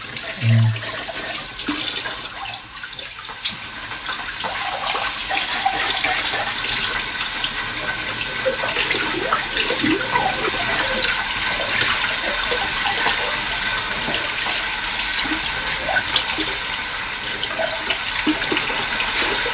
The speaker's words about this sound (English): Take a seat whilst I'm washing up.